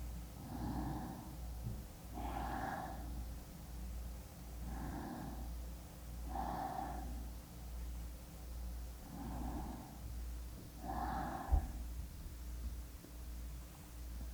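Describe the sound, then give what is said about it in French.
Slow inhales and exhales during a breathing exercise that draws air high into the chest below the collarbones. Six soft, even breath sounds come at regular intervals, faint over a steady low hum. “Toujours dans cette position, on inspire sous-clavière. On expire. On le refait 3 fois.”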